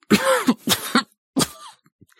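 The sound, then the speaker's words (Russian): Dry, hoarse coughing like that of bronchitis: a few rough, voiced bursts in quick succession, the last one trailing off, with no talk over them. “Кашель сухой и хриплый, как при бронхите.”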